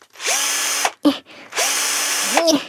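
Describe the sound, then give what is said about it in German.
A power screwdriver whirs as it unscrews armchair seats, running in two loud, sustained bursts with a brief pause between them, the motor pitch climbing as each run starts. “Ich schraube mal kurz die Sessel wieder ab.”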